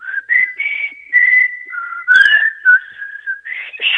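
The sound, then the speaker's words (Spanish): A person whistles a tune alone, a clear, high, fairly loud tone that glides between held notes and quick steps, with a brief sharper chirp near the middle. “Espera, espera, porque me río y no puedo poner el piquito para silbar.”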